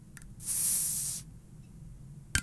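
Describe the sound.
Fizzing hiss of a soda bottle cap twisted open, a bright, airy spray of gas lasting under a second, with a faint tick before it and a short sharp click afterward.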